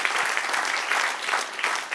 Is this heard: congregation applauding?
yes